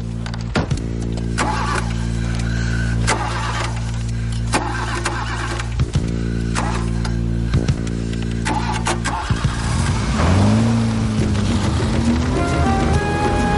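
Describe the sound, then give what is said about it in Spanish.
A car engine starts and speeds away fast: a steady running rumble with a few clunks, then revs that climb sharply in pitch as the vehicle accelerates off, loud throughout. “Por fin consiguen arrancar el coche y escapan de la zona a gran velocidad.”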